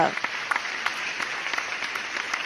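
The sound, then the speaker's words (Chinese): Warm applause welcoming a speaker at an event: dense, steady clapping from a crowd that continues evenly from start to end. “好，那我们就用热情的掌声来欢迎爱思灵魂跟先知风的执行长邱家政”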